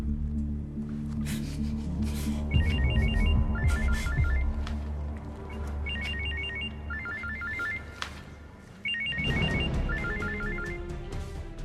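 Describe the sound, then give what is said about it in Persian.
A phone rings with a bright electronic ringtone in three cycles, each made of two quick trilling bursts. The ringing plays over a steady low background hum. “آنجل داره زنگ میزنه.”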